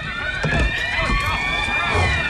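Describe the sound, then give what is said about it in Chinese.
A crowd of people runs down the stairs of an apartment building, with a dense patter of hurried footfalls under a continuous wavering tonal noise, loud and unbroken throughout. “哟，这人们都在往楼下跑啊，是不是着火了？”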